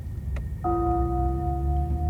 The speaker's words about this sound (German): Beim Gongschlag ist es 24 Uhr.